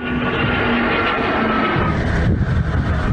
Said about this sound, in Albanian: Në fund të ceremonis, dy helikopterët Black Hawk, dronët Bayraktar dhe 6 avionët Eurofighter të ruan mbi qiellin e Kuçovës.